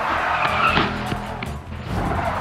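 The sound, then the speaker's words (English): A pizza delivery car skids to a screeching halt during a chase, its tires squealing loudly over engine noise in a continuous rough screech that dips briefly near the end. “It's a pizza delivery car, charging in like the cavalry. The pizza man notices the foot chase from down the block. He decides to help by bringing the pursuit to a screeching halt.”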